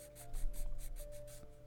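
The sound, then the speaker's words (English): Quill pen scratching as it writes with ink: a run of short, rhythmic, hissy strokes, fairly faint, over a low steady hum. “She starts to write, and the quill snaps again.”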